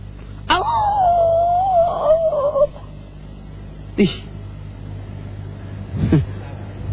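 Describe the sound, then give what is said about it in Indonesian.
A dog howls in one long, wavering tone that slowly falls, then two short, sharp sounds follow after pauses. “Lolongan anjing itu karena mendengarkan rintian orang-orang di dalam kubur.”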